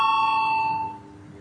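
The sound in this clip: A bell sounds to call a vote in a parliament chamber: a single clear electronic chime tone that holds steady, then fades away alone.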